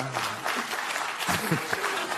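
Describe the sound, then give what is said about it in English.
Audience clapping fills a brief burst of steady applause, with a voice speaking over it near the end. “Let's see who's clapping there.”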